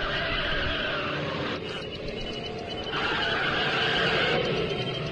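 Tires screech as a car on new tires pulls away: a loud, sustained squealing roar lasting about five seconds, dipping slightly midway before swelling again.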